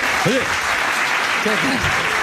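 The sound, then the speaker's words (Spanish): An audience applauds with steady, dense clapping throughout, loud and even, while a voice speaks briefly over it. “Un aplauso.”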